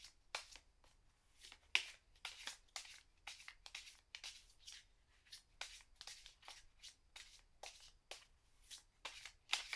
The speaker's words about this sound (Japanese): カードをシャッフルするっていうと大体の方はこういうやり方をやりますよね。トランプをするときとか、カードゲームをするときとか。